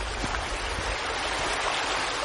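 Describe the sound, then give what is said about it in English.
A small brook flows in a steady, even watery rush that holds at a constant level from start to end, with no voices. “Glenn makes a detour to admire a nearby brook. This is a beautiful little sight down here.”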